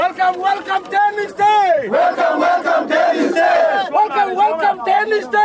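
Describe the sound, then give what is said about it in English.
Pro-government protesters at an airport chant slogans in loud unison, their voices rising and falling in a repeated rhythmic cadence with no pause throughout. “At the airport, pro-government protesters chanted, Salva Kiir is our president! Salva Kiir is our president! 32 states, oye!”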